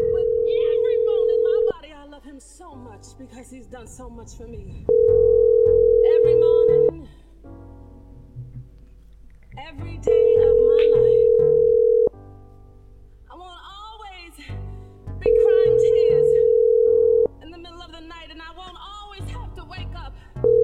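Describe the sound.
Telephone tone while placing a call to a cell phone: a steady single-pitched tone sounds four times in bursts of about two seconds, with people talking in the gaps between.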